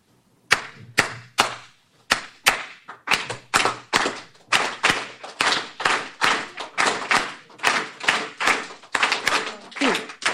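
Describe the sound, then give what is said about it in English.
Cuban clave rhythm tapped out by hand, a long run of sharp, dry percussive taps in a steady repeating syncopated pattern, loud and alone with no voices. “Ahora, esa clave, is a beat in Cuban music that is considered sacred. It does not change.”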